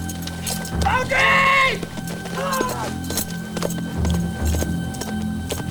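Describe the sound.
Hooves of horses galloping away as riders flee in a Western film scene, a busy stream of hoofbeats under loud shouted voices.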